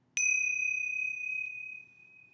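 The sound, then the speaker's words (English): A meditation bell is struck once, giving a clear, high, pure ring that sustains for about two seconds and slowly fades, quiet and alone. “Those are my bells, and those are to trigger awareness,”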